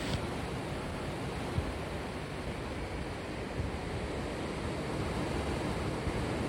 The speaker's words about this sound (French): Un petit moment sur la plage d'Octeville. Il y a les citernes monumentales de l'ancienne base de l'OTAN au pied des falaises, face à la mer.